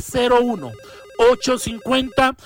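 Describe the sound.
An incoming call rings on a telephone line as a low, evenly pulsed tone, heard alongside a voice talking in short bursts.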